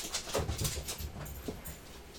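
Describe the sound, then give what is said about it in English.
A dog wanting to be let in makes quiet, short whimpers and breathy huffing sounds in a loose series. “We'll just pause for a sec here. It was Odie barking to get in.”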